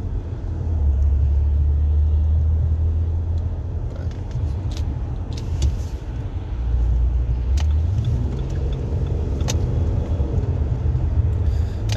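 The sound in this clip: Car driving on a road in South Texas traffic: a loud, steady engine rumble and road noise, with the low engine tone dropping and then climbing again as speed changes. No one speaks.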